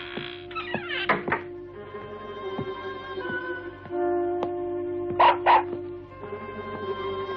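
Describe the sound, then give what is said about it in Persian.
A dog called Pako barks, apparently from hunger: a cluster of sharp barks early on, then a couple more later, over a steady tonal hum. “چیه پاکو تو گشنت پارس میکنی؟”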